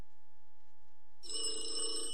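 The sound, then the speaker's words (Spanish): A telephone bell rings after a quiet start, bursting into a loud, bright, trilling ring that continues to the end. “contesta ese teléfono”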